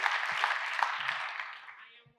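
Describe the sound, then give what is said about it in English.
A round of applause from an audience at an affirmation session: thick, continuous clapping that gradually thins and fades out toward the end. “Round of applause for her. Thank you, girl. I am accountable. I am accountable. Round of applause for I am accountable.”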